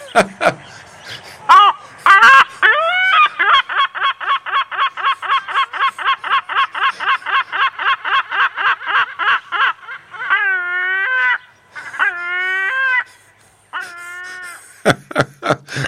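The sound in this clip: A black-backed bird with a red-tipped beak gives a loud, strident call: opening yelps, a long fast run of repeated laughing notes, then drawn-out wailing cries and a few sharp closing yelps.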